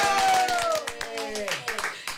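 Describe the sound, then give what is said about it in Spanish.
A studio audience claps to welcome a guest singer onto a variety program. Crisp, closely spaced hand claps sound over a voice at the start, and the clapping thins into scattered beats toward the end. “¡Aplausos!”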